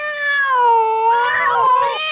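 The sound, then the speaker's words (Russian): A cat in a garden gives one long, drawn-out, wavering meow with a nasal caterwauling edge, loud and alone. “План Мурли был прост. Пока еще светло, забраться в сад господина Элемейта и устроить там небольшой кошачий концерт.”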